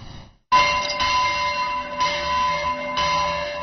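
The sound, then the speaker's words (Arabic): Church bells ring out for Christmas at churches in Beirut's southern suburbs, loud metallic strikes about a second apart, each leaving bright, sustained ringing tones that overlap and hum on between hits. “كعادتها فضحت أجراس كنائس الضاحية الجنوبية محتفلة بعيد الميلاد المجيد.”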